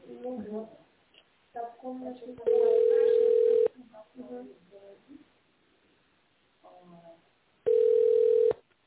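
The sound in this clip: Two long, flat telephone tones sound while a call is being transferred, each lasting about a second. Voices talk over a narrow phone line between the tones.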